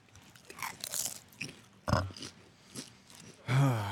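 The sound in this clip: Truffle-flavored Rap Snacks chips are bitten and crunched in a run of crisp, brittle crunches of varying loudness, ending with a brief voiced sound.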